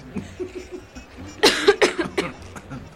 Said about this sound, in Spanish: Perdonen, tengo tos.